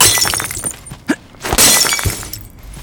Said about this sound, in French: Il jeta quelques pierres pour briser la vitre.